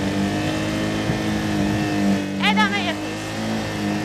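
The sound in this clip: Motorcycle engine at low revs during a slow training ride through a series of turns: a steady, even drone with little change in pitch and one brief higher squeal partway through.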